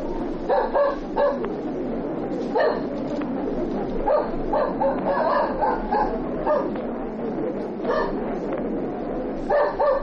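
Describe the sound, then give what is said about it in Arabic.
A police tracking dog barks and yips while circling a line of villagers to single out a suspect. Several short, high barks and whimpering yips come in uneven bursts over a low, steady background. “الكلب لف حوالين طابور الاهالي مرتين من غير ما يطلع حد. استنى عليه اما يلف المره الثالثه.”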